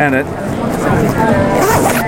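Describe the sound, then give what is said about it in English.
A zipper closes away the extra sleeve of a Passport Sling shoulder bag, a brief rasp heard under people talking. “So we've got an extra little sleeve here, and what it does, it just gives you a whole extra amount of space. Oh, nice. And you zip it away,”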